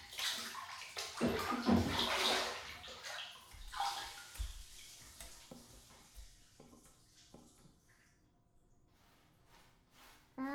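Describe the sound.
Water splashes and sloshes in a bath as someone's back is washed. The splashing is irregular, busier at first and thinning out later, with a fresh splash at the very end.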